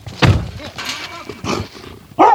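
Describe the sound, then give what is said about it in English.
A wild female dog barks and growls at the gate of a rural house, a few rough, separate bursts spaced by short pauses, with the final one loud and abrupt. “Who's that? That's my dog. She's too wild.”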